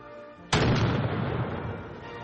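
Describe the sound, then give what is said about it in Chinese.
A 16th-century cannon fires once at a public artillery demonstration: a single sudden, loud blast followed by a long, rolling rumble that slowly fades. “而这一门是16世纪的火炮， 开火。”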